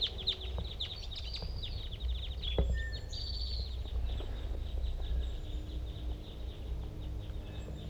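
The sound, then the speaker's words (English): Calls of a flock of large-race crossbills, all of the same call type: many short, high chirps, some in quick bursts, sounding fairly faint over a steady low rumble. “a lot of other cross-bills. They all appear to be the same call type”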